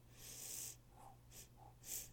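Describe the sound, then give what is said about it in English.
Sniffing at a lime-flavored Mountain Dew soda: a few soft, breathy inhalations, one long and several shorter, quiet over a faint, steady low hum. “sniff it.”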